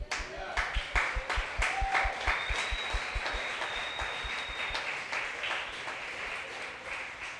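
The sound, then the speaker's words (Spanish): Applause fills a church. It starts as fast, rhythmic hand claps on a steady beat and then blends into a denser, more even wash of clapping. “¿Tú no le puedes dar un aplausito al Señor?”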